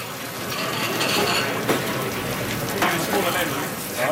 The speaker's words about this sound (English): I reckon most tables will order one of the potato dishes, no matter what. So that goes in the fryer.